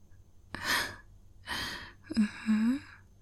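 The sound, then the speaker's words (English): Soft, close breathing comes in three separate breaths with short pauses between them. The last breath carries a voiced, sighing tone. “Listen to my breath as I make you feel so relaxed.”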